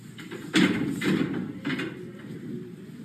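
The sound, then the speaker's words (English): A door slams shut as someone storms out of a press conference: one sharp, loud bang, then a couple of weaker thuds and rattles trailing off. “That is the sound of a door slamming as Rivera just threw himself out of the press conference.”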